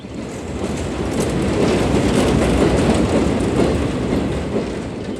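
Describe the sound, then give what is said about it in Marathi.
A train running on rails during a journey: a steady, loud rumble with the rhythmic clickety-clack of wheels on the track, swelling slightly in the middle and carrying on without any voices. “Ramesh लगेच दुसऱ्या दिवशी ट्रेनने सुरेशच्या गावी जाण्यासाठी निघतो”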